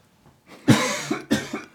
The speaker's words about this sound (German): Deswegen musst du jetzt einsetzen, weil ich muss husten.